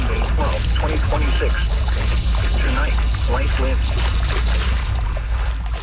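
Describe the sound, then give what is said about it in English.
Paddle strokes dip into the water as a boat is paddled in the Race to Alaska, a steady rhythm of splashes and trickles with people talking over them. “You're just going to keep on paddling. Yeah, keep on paddling.”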